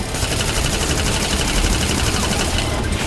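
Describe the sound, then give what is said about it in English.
Loud M16 rifle gunfire in rapid, continuous bursts, a dense sustained crackle of shots with no pause and no voices. “I hit it, but the M16s aren't doing anything.”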